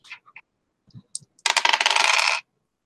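Dice roll on a table during a Call of Cthulhu tabletop role-playing game: a few light, separate clicks, then a dense clattering rattle lasting about a second that stops abruptly.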